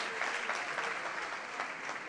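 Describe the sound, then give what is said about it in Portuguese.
Applause for God from an audience during a church service: dense, continuous clapping that holds steady for the whole stretch, fairly faint and without voices. “Why don't we give God the big clap? Vamos dar uma salva de palmas ao Senhor.”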